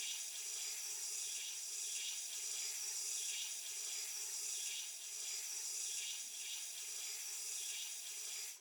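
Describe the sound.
Water runs and splashes steadily while someone's arm is washed, a faint, even flow of hissing water that continues unbroken for several seconds with no voices.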